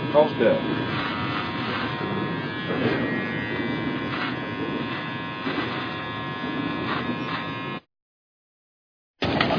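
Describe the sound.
An electric shaver buzzes steadily as it trims a person's ear hair, running for about eight seconds while people talk, then cutting out briefly before starting again.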